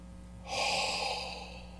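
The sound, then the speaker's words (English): A voice imitates a dying man's last exhaled breath: one long, breathy, airy exhale that holds steady to the end, with no words spoken. “The Greek literally says, "having said this, he exhaled." That's literally what it says. Having said this, he went,”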